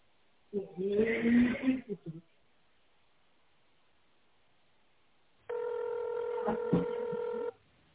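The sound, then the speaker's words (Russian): A touch-tone telephone tone entered to reach an extension through a company's automated phone menu. After a short muffled burst, one sustained bright tone holds for about two seconds, then stops. “Если вы знаете внутренний номер абонента, наберите его, пожалуйста, в тоновом режиме.”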